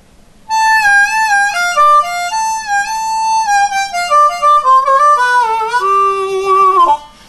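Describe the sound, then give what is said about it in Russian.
Solo harmonica playing a minor-key melody with bent notes: a loud, continuous line of reedy tones that steps downward toward the end before stopping. “Когда вы играете на гармошке не мажор, а минор, это звучит примерно так.”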